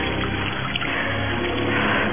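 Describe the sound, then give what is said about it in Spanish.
Icy water splashed onto a head and face makes a steady, rushing splash and pour that runs without a break for about two seconds. “El agua helada en mi cabeza y cara me despegará.”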